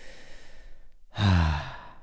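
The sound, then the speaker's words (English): A single deep breath from a person, a loud airy sigh that swells suddenly after a quiet stretch and then tapers off. “catch yourself and consciously take a deep breath.”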